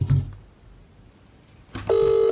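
A telephone call being dialled: a short tone burst, a quiet pause, then a loud, steady ringing tone that starts near the end and holds.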